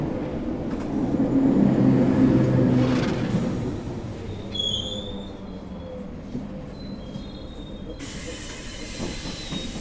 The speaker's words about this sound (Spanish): El tren está llegando a uno de sus destinos.